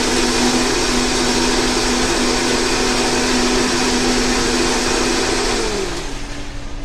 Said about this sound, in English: So I'm just going to blend the egg yolks into the mint. It's going to be a little loud, so bear with me here.